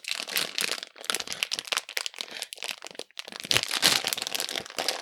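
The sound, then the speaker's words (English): A plastic bag of Haribo German gummy bears crinkles and rips as it is torn open at the bottom. Dense, crackly plastic rustling continues without pause for the whole clip, and no one speaks. “You're tearing the bottom of the bag here.”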